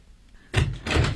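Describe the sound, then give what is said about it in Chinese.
A door bangs open and shut: two loud, heavy thuds in quick succession over a quiet background. “快把门关上。”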